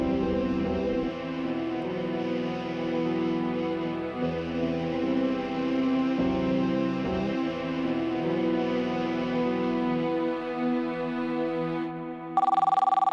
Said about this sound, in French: C'est un appel téléphonique au commissariat de Nancy qui change le cours de cette histoire.